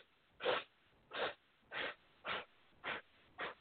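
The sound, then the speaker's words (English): Sharp nasal sniffs in a yoga breathing exercise, breath drawn and released through the nose in short pulses: six evenly spaced, fairly loud sniffs about half a second apart, with no talking. “we inhale in four sniffs, and we exhale in four sniffs”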